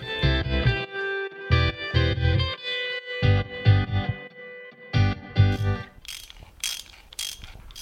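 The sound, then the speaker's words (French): A ratchet wrench clicks in a few quick bursts near the end while a moped engine axle is reassembled. Before it comes a stretch of loud, rhythmic, tonal pulsing. “Alors, pour dévisser ou pour revisser, peu importe le sens, c'est ce qu'on appelle une clé à cliquet. Donc, il y a deux sens de serrage ou desserrage. Et là, je suis en train de remonter l'axe du moteur de la mobylette.”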